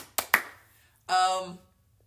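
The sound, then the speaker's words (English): Two sharp hand claps in quick succession, followed by a brief voiced vocal sound. “One more clap.”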